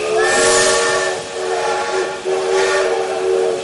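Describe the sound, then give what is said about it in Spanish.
A train whistle blares with a steady, tonal note over rumbling rail noise from a waiting train in Madrid. The sound is loud and sustained, with two slight dips before the whistle swells again. “Ambos van hacia el tren donde esperan Luis y Watson.”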